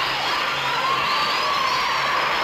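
Recorded crowd applause played from a record in a comedy sketch: an unbroken wash of cheering and clapping that holds at a steady, fairly loud level throughout.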